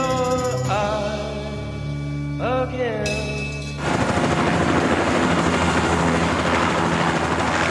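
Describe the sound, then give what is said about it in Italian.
Bell 205 helicopter with its engines running on a Saigon apartment rooftop during the April 1975 evacuation: whining tones that shift in pitch give way to a loud, dense, pulsing rotor roar. “un elicottero Bell 205 ha i motori accesi”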